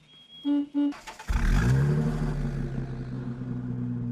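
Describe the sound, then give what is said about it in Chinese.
Car engine starts with a loud burst, then revs and settles into a steady rumbling drone as the car pulls away; two short, even tones sound just before the engine catches. “便高高兴兴地开车拉着杜任之直奔刘厚同在联谊社的住处”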